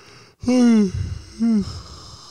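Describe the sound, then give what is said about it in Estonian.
A big, voiced yawn: a loud drawn-out tone that slides downward in pitch, followed by a second, shorter falling sound and a breathy exhale. “Wow, see oli väga haige haigutus.”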